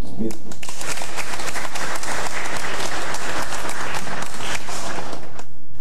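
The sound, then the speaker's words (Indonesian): Applause at a public gathering to honor a regent, a loud, dense round of clapping from many hands that continues throughout with voices mixed in. “Kita semua berikan tepuk tangan dulu”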